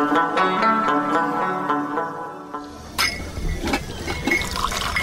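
Tea being poured into a glass, a rushing, splashing fill of liquid that begins partway through and continues to the end, with a few sharper bright accents.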